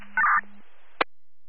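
A brief electronic acknowledging tone on an emergency dispatch radio channel sounds for about a quarter second over a steady low hum, then a single sharp click follows.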